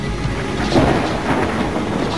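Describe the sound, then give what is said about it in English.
Thunder in a worsening storm: a loud, continuous rumbling roar with a hiss like rain mixed through it and no clear separate claps. “The storm is getting worse.”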